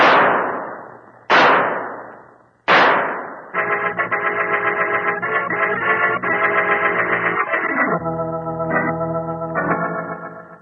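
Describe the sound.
Three pistol shots are fired at a fleeing killer, each a sharp crack whose tail fades away, spaced a little over a second apart, before music takes over.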